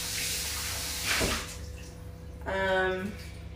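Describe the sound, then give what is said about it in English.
Tap water runs while something is washed so it can be reused right away. A steady, fairly soft hissing stream swells briefly partway through. “We are washing something just so I can use it again right away.”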